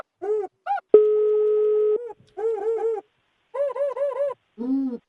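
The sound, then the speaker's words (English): Telephone ringing tone while waiting for an answer, a single steady tone lasting about a second, with warbling, hooting tones before and after it. “Come on, pick up the phone. Pick up, pick up, pick up.”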